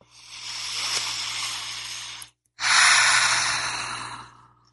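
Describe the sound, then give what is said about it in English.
A deep breath is taken with a hand on the heart during a guided gratitude exercise: a long airy inhale of about two seconds, a brief silent pause, then a slightly louder rushing exhale of similar length, with no talk. “take a deep breath of love and gratitude with me”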